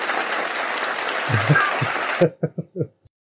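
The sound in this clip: Applause sound effect introducing a character in a tabletop role-playing game, a steady dense roar of clapping that stops abruptly. A few short vocal sounds follow in the silence after the cutoff.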